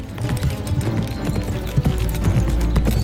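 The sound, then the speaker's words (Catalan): Hoofbeats of a horse galloping through a forest, a steady rhythmic pounding that continues through the whole clip over a dense, constant background. “En Bernat galopa pel bosc sobre un cavall negre”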